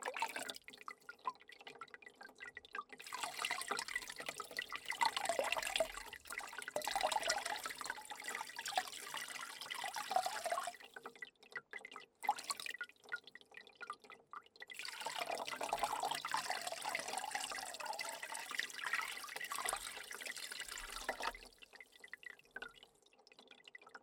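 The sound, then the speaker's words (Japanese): Water runs in two long, soft, steady stretches as a rinse during a beauty treatment before an oil massage, separated by short quiet gaps. “一度お流ししますね。”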